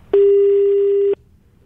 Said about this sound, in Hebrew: אפשר להתקשר לבן אדם?